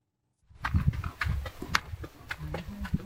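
Horses' hooves clip-clop at a walk on a guided nature ride through high mountain plateaus and valleys in Turkey. The many soft, uneven steps begin after a moment of silence and continue steadily.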